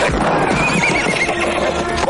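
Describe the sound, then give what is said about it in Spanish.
A horse neighs while its rider holds it by the reins during a western gunfight scene, a high, wavering whinny rising out of dense, loud, continuous background noise. “Uno de los cuatreros intenta que su caballo, al que sujeta por las riendas, esté quieto.”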